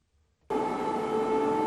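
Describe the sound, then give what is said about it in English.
An air raid siren blares over Kyiv during an overnight Russian missile and drone attack, cutting in abruptly after near silence and holding a loud, steady wailing tone. “Thousands of residents took shelter underground as sirens blared through Kyiv overnight.”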